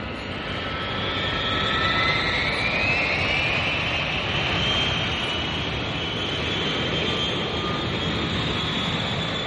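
An airplane taking off gives a steady, loud jet roar with a high engine whine running through it, and that whine climbs slightly in pitch partway through.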